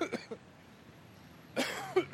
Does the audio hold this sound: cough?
yes